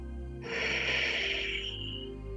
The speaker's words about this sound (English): Inhale into the chest for 3 seconds and then out of the chest for 3 seconds. And then nice long exhale.